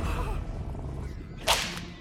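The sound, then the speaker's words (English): A lasso swinging through the air gives one sharp, whip-like swish that rises briefly out of a steady background. “With their lassos, Lance and Whitey swing above the hamsters.”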